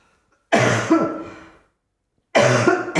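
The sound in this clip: Loud, rough throat clearing and coughing in two separate harsh bursts, each with a second catch, with silence between them.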